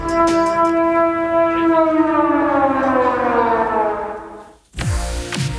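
Civil defense siren in Denmark sounding the all-clear signal: a loud, steady tone rich in harmonics that slowly sags lower in pitch before cutting off, then another tone briefly begins.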